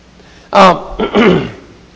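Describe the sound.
Someone clears their throat in two short, rough bursts, the first sharper and the second slightly longer, with no speech around them.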